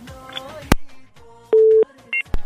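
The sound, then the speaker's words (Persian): A telephone tone sounds after a call is cut off: a steady mid-pitched beep lasting a moment, then two brief higher beeps, with sharp clicks in between. “بله تماس قطع میکنیم، میریم یک تماس بعدی را وصل میزنیم”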